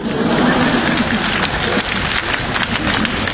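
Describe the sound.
Audience applause at a live comedy stage show, a dense, continuous patter of clapping that stays loud and even throughout.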